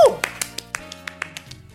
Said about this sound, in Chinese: 那我们都先请大家为他们鼓掌。